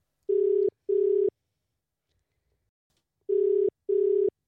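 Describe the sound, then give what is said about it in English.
Ringback tone of a phone call placed from Sydney during lockdown: two double rings, each a pair of short, steady, buzzy tones, sounding alone against silence with a long pause between the pairs. “I am going to dial her in, so stand by.”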